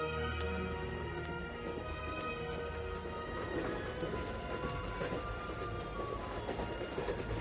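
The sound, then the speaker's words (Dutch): A train travels on rails from Pune to Madras in India, giving a steady, loud rumble with rattling clickety-clack wheel noise throughout and no voices. “in de trein van Pune naar Madras”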